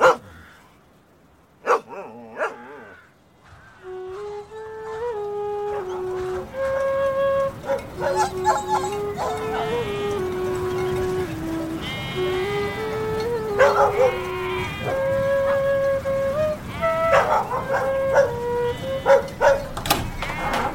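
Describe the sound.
Dogs barking: many sharp barks and yips scattered irregularly across about twenty seconds, some bunched in quick clusters, fairly loud over a continuous background.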